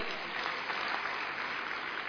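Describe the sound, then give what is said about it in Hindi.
Applause from an audience answering a speaker's greeting, many hands clapping in a steady, dense, fairly soft patter that holds evenly from start to finish. “तो अच्छे बन के दिखाओ तो एक बार ताली बजा के।”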